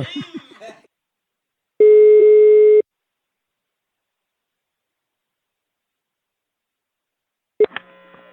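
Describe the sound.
One long, steady ring tone sounds as a phone call rings through. A long silence follows, then a brief sharp click near the end.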